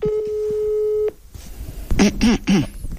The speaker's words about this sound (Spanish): Vamos a hacer una llamada, porque había una persona que le quería saludar, y vamos a ver si conseguimos que la salude.